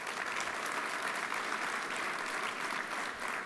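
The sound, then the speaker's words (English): Audience applause at a high school basketball awards ceremony honoring two award winners, thick continuous clapping at an even, moderate level throughout. “Let's give them a hand.”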